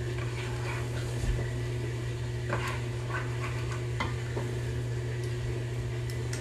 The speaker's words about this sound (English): And just mix it all up that tomato paste incorporated in there.